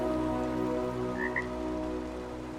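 A frog croaks from the edge of a cliff in a steady, continuous low croaking drone. It stays fairly quiet throughout, with a couple of brief higher chirps near the middle.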